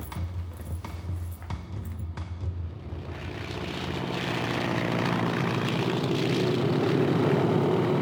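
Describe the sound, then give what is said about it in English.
Propeller engine drone of a Fairchild monoplane descending and landing on a dirt airfield, a steady rumbling hum that swells louder and fuller toward the end, with a few faint clicks early on. “A Fairchild monoplane descends and lands on a dirt airfield on the outskirts of Honolulu”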